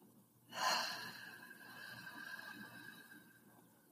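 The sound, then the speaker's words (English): A deep exhale through an open mouth during a yoga breathing exercise for anxiety: one breathy rush that swells quickly and then fades slowly, with faint sustained tones beneath. “So inhale for me. Hold at the top. Open your mouth and exhale.”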